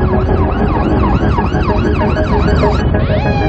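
A loud wailing police siren sounds as officers pull over a motorcyclist, its pitch sweeping up and down in rapid repeated cycles without a break.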